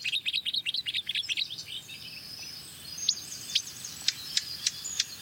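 A blackcap sings alone and faintly: a quick run of bright, high chirping notes, then a brief lull, then a few sharper, separated high notes at a slower pace.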